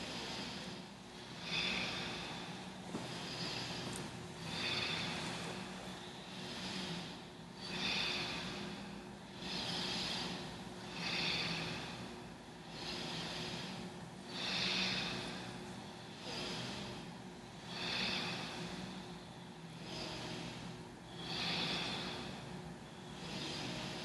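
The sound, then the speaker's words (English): Many rhythmic breathing cycles, inhaling and exhaling during a seated shoulder-shrug exercise, come as soft airy swells at a steady, even pace over a constant low hum. “Use your breath, inhaling and exhaling.”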